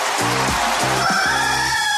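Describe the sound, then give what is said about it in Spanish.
A rooster crows in one drawn-out call broken into a few harmonic segments, heard over a steady hiss-like background with no voices. “El gallo, por Radioactiva. Señoras y señores, el gallo de Radioactiva está al aire”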